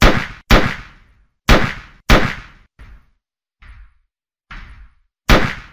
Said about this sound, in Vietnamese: Nhiều tiếng nổ súng cùng một lúc làm cho trời đất vang vọng.